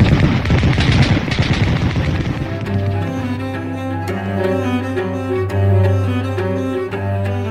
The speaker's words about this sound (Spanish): ¡Disparen! ¡Disparen! ¡Fuego a discreción! ¡Disparen!